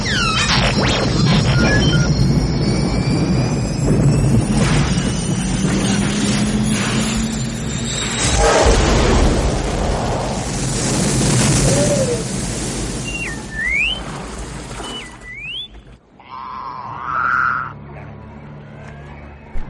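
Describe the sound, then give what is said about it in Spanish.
A spaceship lands on the planet Dagobah in a Star Wars video game. A loud, sustained roar of engine noise carries whistling tones, with a few rising electronic beeps near the end, before the roar cuts off into quieter sounds. “Hemos llegado aquí en una nave espacial.”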